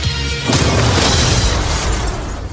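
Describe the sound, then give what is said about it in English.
A photon blast from an energy weapon: a loud, booming burst erupts after a brief lead-in and carries on as a dense, roaring rush that eases slightly near the end. “That's a photon blast.”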